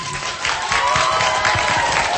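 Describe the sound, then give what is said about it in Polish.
Warm, sustained applause rises from a large crowd of children, parents and clergy gathered at Jasna Góra, honouring those who brought the young pilgrims. Dense clapping fills the whole clip at a steady, fairly loud level, with no talk over it. “Rodzicom, księżom, opiekunom, wychowawcom, siostrom zakonnym, już teraz gorącymi oklaskami podziękujmy za to, że pomogli wam przybyć na Jasną Górę.”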